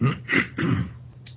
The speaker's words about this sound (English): Now, I'm not going to take a break, but I'm going to just clear my throat for a minute.